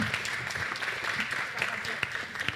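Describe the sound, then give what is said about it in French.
Audience applause after a startup pitch at a digital technology event: soft, steady clapping fills the moment, with sharper individual claps standing out, fairly quiet with voices mixed in. “Merci beaucoup on peut l'applaudir. On peut les applaudir.”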